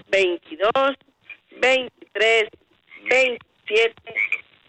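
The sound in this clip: Frog croaking imitated by a human voice, a string of short, loud, harmonic ribbit-like bursts in an uneven rhythm with brief gaps between them.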